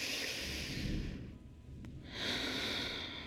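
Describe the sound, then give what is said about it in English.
A big breath drawn in during a seated relaxation exercise. Two long, airy, fairly loud breath sounds are separated by a short, quieter pause, with no talking. “I put my hands on my knees, and I'm going to take a big breath in. Let's take another big breath in.”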